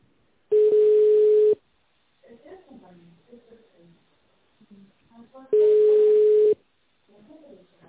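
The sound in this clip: Two long, steady mid-pitched tones, each lasting about a second, sound on a telephone line while a call is being transferred. Faint, muffled voices come through between them.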